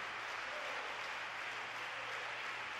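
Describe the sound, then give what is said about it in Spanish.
Faint applause from a church audience clapping in praise during a sermon, a dense, even wash of many hands that continues unbroken for the whole stretch. “Dale un aplauso a Dios en esta hora.”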